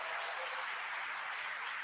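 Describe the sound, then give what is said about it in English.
An audience gives a round of applause for Booster Club participants at a gathering. The dense, even clapping holds steady and continuous, fairly soft and thin in tone, with no break. “Can we give the right? Can we give the Booster Club participants a round of applause?”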